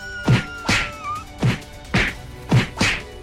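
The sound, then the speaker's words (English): Heavy thwacks from a spinning roundhouse kick hitting an animal's muzzle in a video game: a run of several loud, punchy impacts with sharp attacks, spaced roughly half a second apart, with no talking. “Take a spinning roundhouse to the muzzle!”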